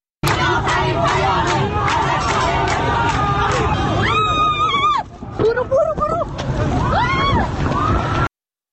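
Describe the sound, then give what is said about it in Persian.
A crowd of protesters in Tehran flee security forces, filling the air with loud, dense shouting and screaming. There is a brief drop in level about midway before the shouts surge again. “بله، همطور که شنیدید صدای فرار کردن مردم از دست نیروهای امنیتی بود.”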